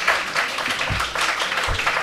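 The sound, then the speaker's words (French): Audience applause at a public book presentation and talk: dense, steady clapping fills all two seconds without a clear break. “Alors, on applaudit aussi.”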